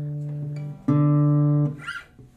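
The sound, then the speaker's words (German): A guitar being tuned by ear against an electronic tuner: two low plucked string notes ring out and sustain, the second struck louder than the first. A brief faint sound follows as the second note fades. “Seid ihr live dabei, wie man eine Gitarre stimmt? Für die bildliche Vorstellung, ich habe ein Stimmgerät vor mir liegen.”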